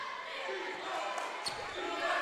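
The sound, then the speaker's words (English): A few soft basketball bounces as the ball is dribbled at midcourt during a game, partly masked by steady crowd noise in the gym. “Reynolds still dribbling at midcourt with Gavin Husty right up on him.”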